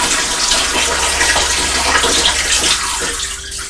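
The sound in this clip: Water pours from one bowl into a brown bowl with a steady, splashing rush that thins and tapers off near the end.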